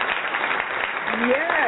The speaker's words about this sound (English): Give the very lovely Inez Kelly a round of applause, ladies and gentlemen.